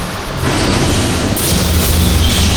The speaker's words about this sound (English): White-hot blasts from the fire dragons' thermal guns and their exarch's firepike cut into the approaching demons